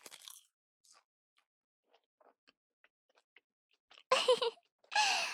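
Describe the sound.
Crisp bites into a croissant with cheese: two loud, crunchy bursts near the end follow a quiet stretch of faint small clicks and ticks, with no talking.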